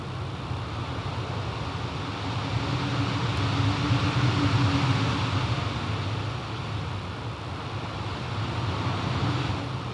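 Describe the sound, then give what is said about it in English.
Background wind layer for a dawn scene in a video game: a steady, low, airy rush that swells slightly through the middle and then settles, with no voices. “So this is for dawn. This is like the background wind. I don't know if we can hear that. It's quite low. It's really low in the mix.”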